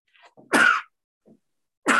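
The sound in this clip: A person sneezes during a German-language medical history interview: two sharp, loud, breathy bursts, the second cut off at the end, with a few faint short intake sounds before the first and a soft brief noise between them, no talk.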